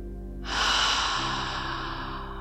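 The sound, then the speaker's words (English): Deep breathing during a guided meditation, a long airy rush of breath that starts abruptly, stays loud, then slowly eases off over about two seconds above a soft, low, steady tonal drone. “Inhale deeply. Exhale fully.”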